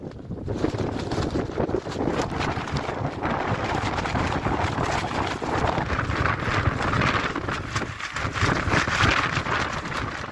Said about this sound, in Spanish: Esto parece viento fuerte, ¿no? Sí, nos cascó bien.